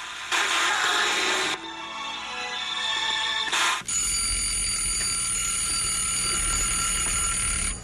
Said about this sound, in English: Time to get up, Bert. The alarm just went off, Bert.